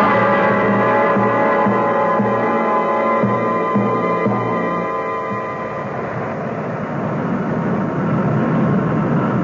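An aircraft coming in to land gives off a loud, continuous engine drone with a steady harmonic hum. The tone shifts slightly partway through and stays unbroken, with no voices.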